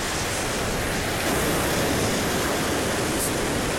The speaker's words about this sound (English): So you could probably hear the sea in the background. I hope so.